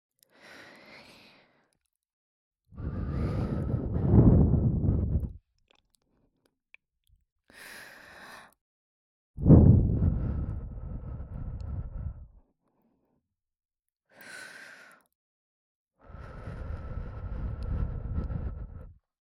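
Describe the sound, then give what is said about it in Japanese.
Gentle breaths blown into the listener's ear come as three long, soft, rumbling gusts against the microphone. Quiet pauses and faint, brief breathy sounds separate them. “じゃあ次こそお耳ふうふうしますね。”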